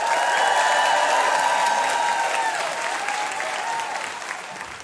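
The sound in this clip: Audience applause welcoming a food writer and cookbook author on stage at a live show: a dense, steady wash of clapping that starts loud and slowly tapers off.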